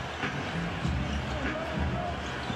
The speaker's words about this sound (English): Beats Kennard on the dribble into the lane.